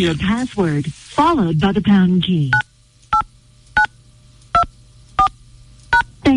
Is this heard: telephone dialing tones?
yes